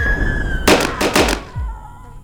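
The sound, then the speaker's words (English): Gunshots fired into a monster: a rapid volley of several sharp, loud cracks in quick succession, then a lower thud as the firing stops, over a faint sustained tone. “Elizabeth unloaded into it again, killing it for good”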